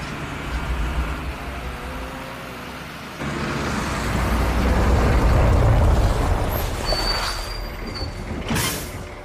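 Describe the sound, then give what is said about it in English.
Lorry engine slowing as it approaches traffic cones at a road checkpoint: a low, continuous rumble that swells midway and then eases, with faint creaks and a thin high squeal near the end. “The lorry slows as it approaches cones in the road.”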